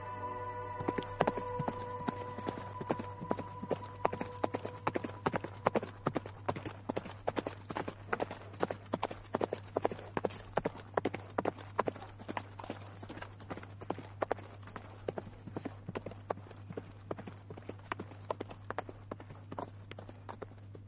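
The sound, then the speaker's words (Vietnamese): Horse hooves clip-clopping steadily as the animal is ridden, with many quick, regular hoof strikes throughout, fairly faint over a constant low hum. “liền lên ngựa tiếp tục chạy về phía Tây”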